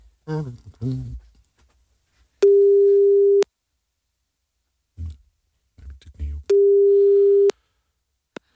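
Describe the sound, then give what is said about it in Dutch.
A telephone call ringing through to a busy line: two steady, mid-pitched one-second ringing tones separated by a pause of about three seconds, with short bursts of other sound before each tone. “Is op dit moment in gesprek. Laat een bericht achter na de toon.”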